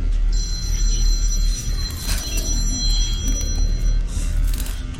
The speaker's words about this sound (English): Unknown caller. At 3 a.m. I'm gonna fucking answer.